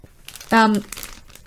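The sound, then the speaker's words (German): Plastic packaging bag crinkling: brief, crisp rustles and crackles lasting about a second, with a short voiced sound partway through. “Man hört es ja, das ist Plastik. Also die Verpackung ist in einer Plastikverpackung drinnen.”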